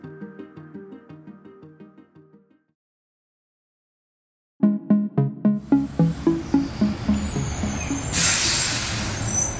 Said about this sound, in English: It might sound like just another rubbish pickup, but in reality, it's New York's attempt to finally clean up its streets.